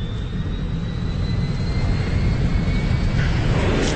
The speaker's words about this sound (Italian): Volo 305 Northwest Orient da Portland sulla rotta 18.5. Durante il decollo l'uomo porge una busta a Florence.